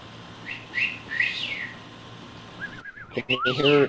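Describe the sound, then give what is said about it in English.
A few short, high, bright bird chirps sound in the background in the first half, then louder whistling with wavering pitch takes over. “I can hear birds singing in the background.”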